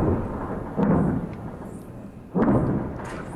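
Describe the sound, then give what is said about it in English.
Explosions from fighting between Israel and Lebanon. Two deep, rumbling booms, well spaced apart, rise over a low background roar and each fades slowly. “Now, that's the sound of fighting ongoing between Israel and Lebanon earlier today.”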